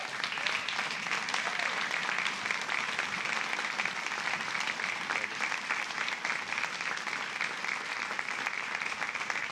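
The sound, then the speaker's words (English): A church audience gives a standing ovation to welcome a guest speaker, with a thick, even wash of clapping that stays loud and steady throughout. “Well, thank you, church. You know, if you get a standing ovation before you begin, you can only go downhill. But thank you for that warm welcome, Pastor.”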